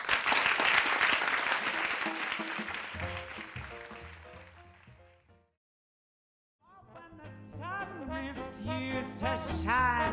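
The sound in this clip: Audience applause for a live musical guest at the Mars Theater in Berkeley: loud, dense clapping that gradually thins and fades out, followed by a brief silence before other sound begins.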